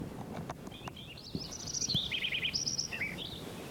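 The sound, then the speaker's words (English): A sparrow calls in a quick run of high chirps and short trilled notes. The calls are faint and sit above a low, steady background hiss. “Like it's sparrow number 5 again.”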